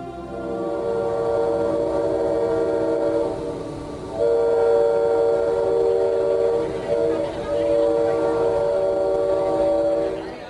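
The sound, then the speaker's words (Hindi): A train bound for Pretoria, South Africa, rumbling steadily while its horn sounds in long, sustained tones that stop briefly and then blare again more strongly. “यह train आपको सीधे Pretoria पहुंचा देगी।”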